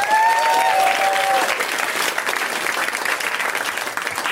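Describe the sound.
Audience applause for a comedy show co-host: dense, steady clapping from a crowd throughout, with a brief high whistle near the start.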